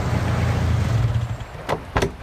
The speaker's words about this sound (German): Geh mal ein bisschen an den Rand, da kommt dein Auto.